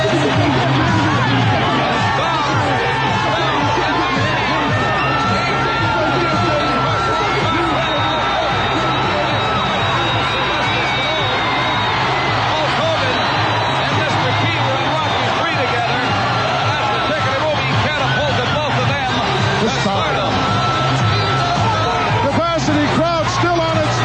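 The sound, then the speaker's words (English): A capacity crowd at an arena event roars and cheers without pause, a dense, loud wall of noise with a man speaking over it throughout. “Okay, I cannot hear myself even think. For the capacity crowd on hand”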